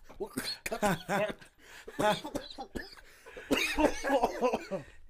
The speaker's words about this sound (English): He's over there choking.